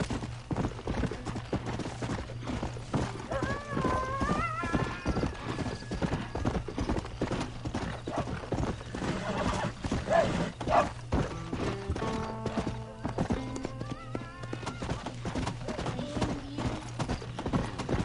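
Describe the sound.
Horse hooves clip-clopping in a video game: a steady, rapid rhythm of hoofbeats throughout, with brief neighing whinnies and a voice talking at times.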